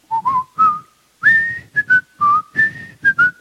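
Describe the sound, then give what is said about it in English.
A person whistles a lively tune of many short, clear notes that step upward in pitch, with brief pauses between phrases and no other sound. “I still whistle today”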